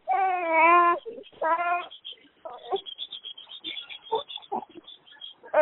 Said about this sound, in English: Can you calm the baby down? Because you got to pacify for the baby.